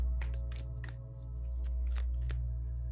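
Oracle cards from a Rhythm of Life deck being shuffled, a faint series of quick, papery riffling bursts in an uneven rhythm.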